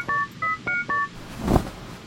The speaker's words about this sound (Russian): Ладно, я наберу, поздравлю.